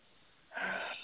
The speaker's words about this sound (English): Okay, so the first thing I want you to do is take a deep breath